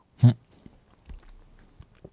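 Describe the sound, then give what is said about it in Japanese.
Mouth sounds of someone eating ice cream topped with wasabi: one short, louder burst at the start, then faint, sparse clicks and soft smacking of chewing. “ちょっとわさびすくって、こうアイスもすくって、 あ、結構 いったでしょ？ 結構いますね。いただきます。”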